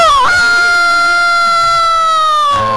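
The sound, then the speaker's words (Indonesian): A rooster crow rings out as one long, loud call held at a steady pitch for over two seconds. It begins with a brief rising onset and breaks off sharply near the end. “Amboi, luar biasa koko ayamnya ya.”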